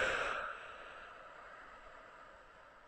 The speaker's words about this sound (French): Il te suffit d'inspirer et de souffler sur ta main.